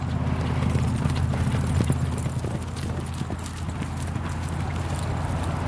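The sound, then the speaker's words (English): Hooves of a horse galloping past while roping a calf, a fast, dense patter of many hoofbeats over a steady low rumble that runs through the whole clip. “gallop right by me, about 4 feet in front of me, roping a calf here.”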